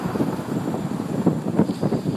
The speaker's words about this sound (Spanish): Hay mucho viento, lo cual está bien porque refresca la temperatura.